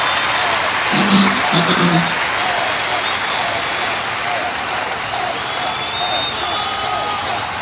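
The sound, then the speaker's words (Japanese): A stadium crowd raising a 'yoisho' call, heard as a dense, loud, steady roar of applause and cheering that fills the whole stretch without letting up. “おっと観客席からはよいしょよいしょのコールが上がってますね”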